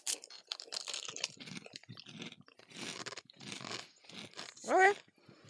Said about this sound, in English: I should stop eating these. It's. I found all the rest of the flavors of those really fun ramen snacks.